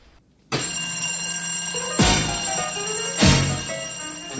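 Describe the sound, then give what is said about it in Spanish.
A telephone bell ringing loudly and steadily, starting after a brief silence and carrying on to the end with a bright, metallic jangle. “¡Una llamada! ¡Abajo!”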